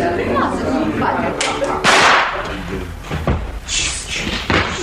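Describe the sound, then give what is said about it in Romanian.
A single loud revolver gunshot as a man shoots himself, a sharp cracking burst partway through, set among scattered rustling and knocking noises. “Ce s-a întâmplat? S-a împușcat.”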